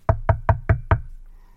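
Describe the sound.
Five firm, evenly spaced knocks strike a house door, each a sharp hollow thud, followed by a short stretch of quiet.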